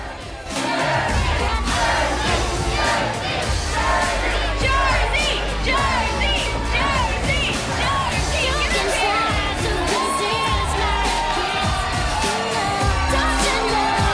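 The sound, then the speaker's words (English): A crowd chanting and yelling in a bar, loud and continuous for the whole stretch, with overlapping shouts and whoops and a dense wall of voices. “As the crowd chant, Leanne beckons Violet onto the bar.”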